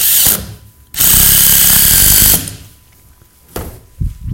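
A power drill drives screws into a board in loud, high whirring bursts: a short run, a long sustained spin, then a brief final burst, with quiet gaps between them.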